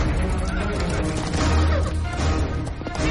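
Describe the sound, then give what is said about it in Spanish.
A white horse neighs with a loud, drawn-out whinny set against a dense, busy action soundtrack. “Águila Roja monta en su caballo blanco”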